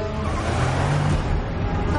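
A car accelerates after resuming driving and maneuvering in city traffic, its engine and road noise forming a dense, loud, continuous roar that stays steady throughout.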